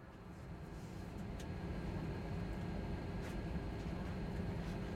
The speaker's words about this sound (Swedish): Ja, det här är ju en Boeing 747. Och det är ju det största flygplanet som finns.